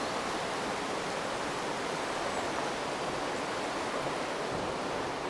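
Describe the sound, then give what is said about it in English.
Flowing stream water rushes steadily, a broad, even hiss of moving water that stays constant from start to finish with no voices. “to tune in with the sound of water again”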